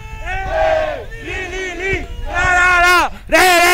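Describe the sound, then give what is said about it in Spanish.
Football fans of Puerto Linares cheer and chant together in the stadium, a loud sustained group shout made of several long voiced phrases that swell and fall. “Escuchemos, escuchemos a la fanaticada del cuadro pirrojo.”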